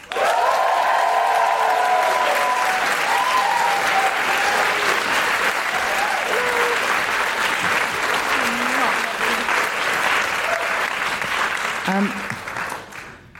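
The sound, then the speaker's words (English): Loud, sustained audience applause with excited whoops and cheers as a guest is welcomed at a live show. The clapping stays dense and steady for most of the time, with high voices rising above it early on, then tapers off at the end. “Please put your hands together and make huge guilty feminist woohooing noises for Kristine Ziwica”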